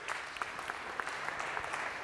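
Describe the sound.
A church audience applauds to welcome a guest speaker forward, a steady patter of many hands clapping that stays fairly quiet and even throughout, with no voices.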